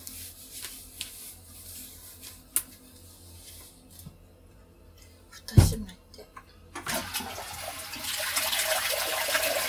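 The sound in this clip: A toilet being flushed: a quiet stretch with a few small ticks, a sharp low thud near the middle, then a rush of water that swells loud and keeps churning to the end.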